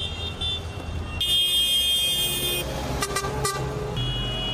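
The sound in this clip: Vehicle horns blare in the streets of Barcelona during a farmers' tractor protest, with a sustained honk over engine rumble, then a few short toots near the end.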